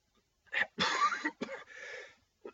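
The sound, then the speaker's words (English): A person coughs in several harsh bursts: a short first hack, a longer rasping cough, a rougher trailing one, and a small final catch of breath. “I am not gonna edit out that cough.”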